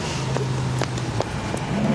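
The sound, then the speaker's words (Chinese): A red sports car drives past and pulls to a stop, heard as a steady low engine hum with a few faint clicks and ticks over it. “郑广美开着那辆红色的跑车从韩大云面前经过，并停在了不远处的赵博轩的面前”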